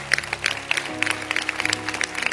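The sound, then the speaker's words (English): Clapping from an audience at a religious gathering: many crisp, closely spaced hand claps of varying strength over a sustained low tonal background. “if you could stand up a little and clap for the word of God again, just the word, just 3 seconds.”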